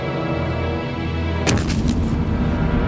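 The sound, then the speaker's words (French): Cannon fire with a shell exploding on a building. A steady low rumble runs until about halfway, then a sudden loud, broad boom breaks out with crackling bursts, and heavy rumbling continues to the end. “Ils ont un canon, capitano. Ils ont un canon? Ils ont un canon? Wow! L'obus est tombé sur le vestiaire. Il a tout détruit.”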